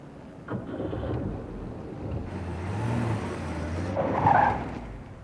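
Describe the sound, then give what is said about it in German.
A car turns in and swerves on a street, its engine rumbling low and swelling in loudness, with a short squealing burst near the end. No one speaks. “Da biegt uns gegenüber gerade ein Wagen ein.”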